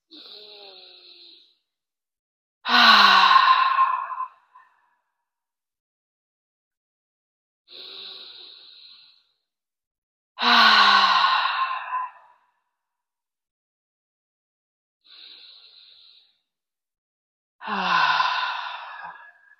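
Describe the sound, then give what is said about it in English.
Three slow, deep breaths, each a soft airy inhale followed by a louder, longer sighing exhale, evenly spaced with quiet pauses between them and no talking. “We're going to take our first deep breath now.”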